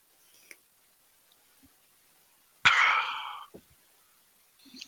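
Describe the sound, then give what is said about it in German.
A single slurping sip of coffee, a short noisy burst that tails off over about a second, with a few faint clicks and small mouth sounds before and after. “ich brauche noch einen Schluck äh, äh, äh Kaffee”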